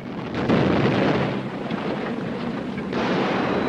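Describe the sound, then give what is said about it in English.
Heavy rumbling blast of a bomb exploding during an air raid: a loud, sustained roar that eases slightly midway and swells again near the end. “Everyone waits with bated breath to see where the next bomb will land.”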